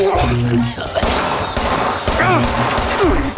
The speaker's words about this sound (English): Well, they're shooting past me, so that's nice.